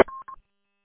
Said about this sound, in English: I'm going to be right back. Got a phone call.